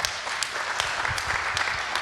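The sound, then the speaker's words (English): An audience applauds a speaker about to give a talk. Dense, steady clapping from many hands continues throughout at an even, moderate loudness. “Yeah, well, good luck. Applause for Michiel.”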